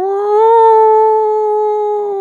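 A person howls in imitation of a dog: one sustained, steady, mid-pitched wail lasting about two seconds, swelling slightly near the start and heard alone without talk.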